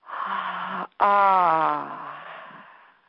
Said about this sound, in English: And then breathe out, pushing the air from the belly out.